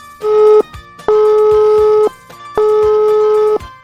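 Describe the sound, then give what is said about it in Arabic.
Ringback tone of an outgoing phone call: three loud, steady mid-pitched tones, the first shorter and the next two about a second each, separated by short silent gaps. “بداية راح نحاول نتصل بالأخ زهير عمية، عم نحاول نتصل فيه.”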